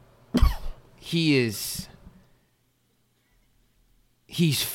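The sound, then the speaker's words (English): A man lets out a single sharp, loud sneeze, followed by a short burst of voice. After a silent pause, the voice comes again near the end. “bless you, sir. That's a sneeze.”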